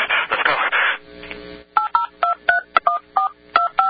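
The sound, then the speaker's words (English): Fast DTMF telephone dialing: many short dual-pitch touch-tone beeps fired off in quick, regular succession over a phone line, following a brief burst of noisier sound at the start. “So let me see if my fast dialing comes up on your side of the line.”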